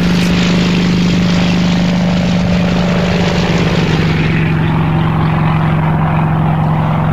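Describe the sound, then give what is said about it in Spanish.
An airplane in flight gives a loud, continuous propeller-engine drone over a steady low hum, unbroken throughout with no voices. “Vamos a coger nuestro primer vuelo de esta mañana para compartir contigo estas horas centrales de esta jornada. O sea que cogemos el avión que rápidamente nos va a llevar de un sitio a otro.”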